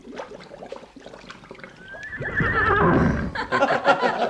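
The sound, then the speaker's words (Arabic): A saddled and bridled horse gives a long, loud whinny that wavers and trails off, preceded by soft scuffling. “ما تخافش ما تخافش يا مولاي السلطان. انا حمسك لك الحصان.”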